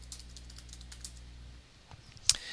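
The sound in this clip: Typing a password on a computer keyboard: a quick, irregular run of light key clicks through the first half, then a few scattered taps and one sharper click near the end, with no voices.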